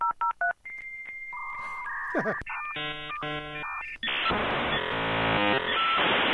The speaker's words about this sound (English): I'm going to wager that some of our listeners don't even know what that sound is. It's dial-up, folks, and we played it to really drive the point home.